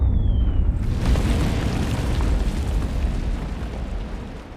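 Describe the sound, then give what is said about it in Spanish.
German artillery shelling a city makes a loud, sustained rumbling roar of blasts that fills the whole clip without pause, with no voices. “La artillería alemana bombardea la ciudad de la mañana a la noche.”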